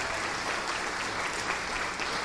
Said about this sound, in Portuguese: Isso, vamos aplaudir ao Senhor Jesus por cada vida que está chegando. Vamos aplaudir mais, está chegando mais.